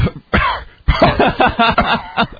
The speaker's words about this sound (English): coughing up some dust